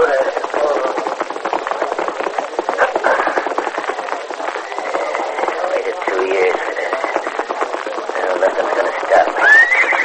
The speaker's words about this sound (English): halted a tiny pony in front of the hitch rack